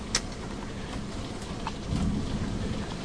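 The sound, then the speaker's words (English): A thunderstorm: a dense, steady hiss of heavy rain over a low thunder rumble that swells in the second half, with a few sharper drop or crackle accents. “Here's the sound of the thunderstorm.”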